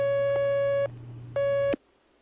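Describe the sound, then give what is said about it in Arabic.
A telephone line tone signals an incoming call on a phone-in question program: two long, steady beeps separated by a short pause over a low hum, then an abrupt click into near silence. “اتصال آخر.”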